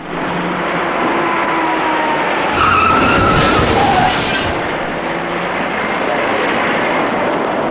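Tires skid as a dark small passenger car moves along a slow, congested road. A steady rush of car noise swells into a louder stretch of skidding in the middle and then settles back, with no voices.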